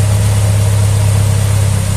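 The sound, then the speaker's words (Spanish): A car engine idles while warming up, slow to reach its operating temperature. It gives a steady, loud, low hum with no change in speed and no talk. “Aparte, le está costando bastante tiempo al carro alcanzar su temperatura. Vamos a esperar.”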